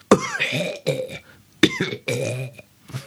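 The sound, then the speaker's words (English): A voice performs a slow-motion throat clearing: drawn-out, low, guttural rasps in a few separate bursts, loud and alone. “And you just hear, in slow motion, a clearing of the throat.”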